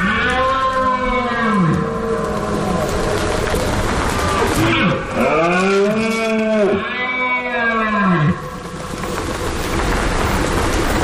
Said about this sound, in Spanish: habrá empezado a sonar en el monte el sonido de la berrea de los ciervos. Ese es el sonido de septiembre hasta bien entrado octubre.